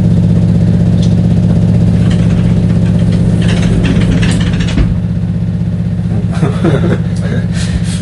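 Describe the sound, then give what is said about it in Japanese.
A washing machine running at home, giving off a loud, steady low hum that sounds like an idling engine and continues throughout, with brief rustles and clatters on top. People talk intermittently over the drone. “ものすごいエンジン音がしてるね。 大丈夫、あの今洗濯機回して。 あ、これ洗濯機か。”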